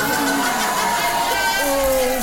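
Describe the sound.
A comedy show audience fills the moment with loud crowd noise, with a dense wash of applause and raised, cheering voices that rise and fall over it.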